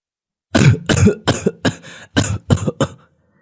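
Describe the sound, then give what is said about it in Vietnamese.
A man coughing violently: a rapid run of loud, harsh, rasping coughs in close succession, each one a short chesty burst, ending abruptly into silence. “Người đàn ông nghe tôi hỏi thì bỗng ho sặc sụa.”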